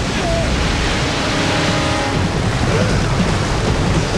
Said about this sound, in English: Water roils near a boulder. The rapids suck Jeff in, spinning him onto his side, then his belly.